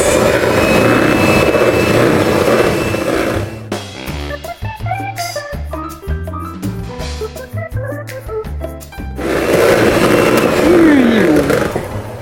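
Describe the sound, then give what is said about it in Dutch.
Electric mixer briefly beating honey and oil into batter: a loud motor whir with a thin high whine runs for a few seconds and stops, a short musical passage follows, then the whirring starts again. “honing en olie toevoegen en opnieuw kort mixen”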